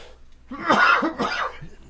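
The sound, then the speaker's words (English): Coughing from a person with an allergy: two harsh, rough bursts close together, fairly loud and heard alone without speech. “Excuse me while I cough. I am definitely allergic to something in the studio over the last couple of weeks since they started working on the roof.”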